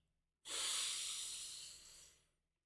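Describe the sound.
A single slow, deep breath taken as part of a guided breathing exercise, a steady airy rush lasting about two seconds that fades gently at the end, heard alone with no talking.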